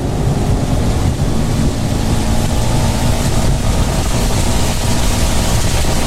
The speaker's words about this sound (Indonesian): hujan nih, aku ngebut ya.